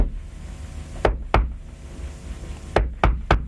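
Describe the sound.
Knocking in the distinctive pattern of a man coming home at night to his house door: two sharp knocks, a pause, then three quicker knocks, each a loud dry rap.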